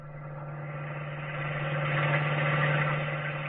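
A car engine hums steadily while driving, a constant mid-pitched drone with faint vibration that swells slightly louder midway and then holds, with no voices.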